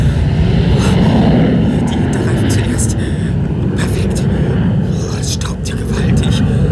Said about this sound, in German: Da! Er setzt zur Landung an!